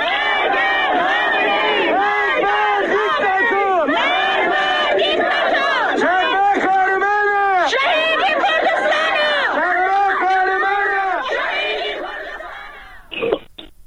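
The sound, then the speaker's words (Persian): Protesters gathered at the grave of Shadman Ahmadi chant loudly as a crowd, the massed voices rising and falling in steady rhythmic waves before fading near the end, followed by a brief short outburst. “صدای معترضان رو بشنویم بر سر مزار شادمان احمدی.”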